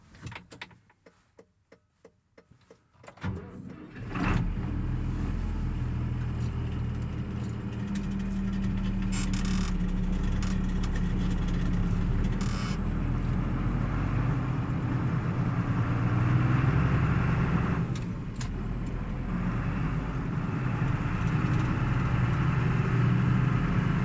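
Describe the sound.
A car engine starts after a few soft clicks and handling noises, then runs steadily and loudly as the car sets off, with no talk over it.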